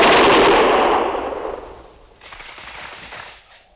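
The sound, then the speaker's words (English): A volley of military gunfire fired on a shouted command: a loud, sharp blast that rolls and slowly decays, followed by a quieter second crackle of shots before fading. “Prepare to fire! Ready? Fire!”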